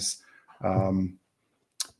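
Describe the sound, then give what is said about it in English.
Typing on a computer keyboard, with a few brief clicks before and after a short stretch of speech. “And I'm typing something in for you.”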